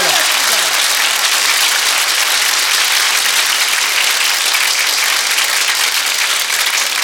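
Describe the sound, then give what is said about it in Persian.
Audience clapping in a dense, continuous roar of applause that stays at an even, loud level from start to finish, with no pauses or changes in intensity. “دست بزن، همه دست بزنن.”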